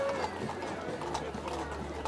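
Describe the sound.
Horses' hooves clip-clopping past a crowd at a festival procession, a steady stream of hoofbeats mixed into busy crowd noise while people talk over them.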